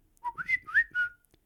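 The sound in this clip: A person whistles an imitation of a knockoff Samsung phone ringtone: a short, clear tune of several quick notes that jump up and step back down, heard alone and ending in silence.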